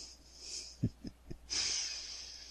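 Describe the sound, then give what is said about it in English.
A person breathes in: a few short, soft snuffling sniffs, then a longer hissing inhale, fairly faint with no talk. “That's it, dear. Breathe it in.”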